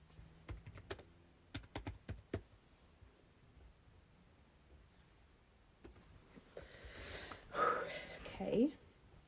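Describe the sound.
Typing on a computer keyboard, with a few quick bursts of crisp clicks at the start and sparser taps afterward, followed by quieter breathy, rustling sounds that swell toward the end.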